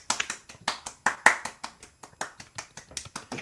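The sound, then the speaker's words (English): A small group claps in a round of applause, a brisk run of sharp, fairly even hand claps over a few seconds, moderately loud with no talking. “For those listening and not watching, we stood up and did a round of applause.”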